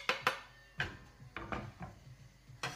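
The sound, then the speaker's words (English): Chopped onions are tipped into a cooking pan, producing a series of faint clattering knocks and taps against the pan spread unevenly through the moment, with no talking. “So I'm gonna pop all of the onions in there that we've just chopped up.”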